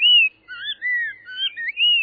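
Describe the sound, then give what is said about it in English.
Spot-breasted oriole song, from an introduced bird of suburban southeast Florida: a few sweet, clear whistled phrases that slide up and down in pitch, separated by short gaps, moderately loud and alone. “Spot-breasted orioles were first brought to Florida in the 1940s from Central America.”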